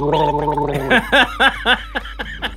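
Thick eggnog gargled in the throat. A throaty, voiced tone breaks into a wet, bubbling gurgle of quick, rhythmic, choppy pulses, loud and alone.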